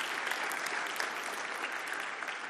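A church audience applauds to congratulate a newly adopted family: dense, steady clapping from many hands that holds an even, fairly loud level throughout with no break.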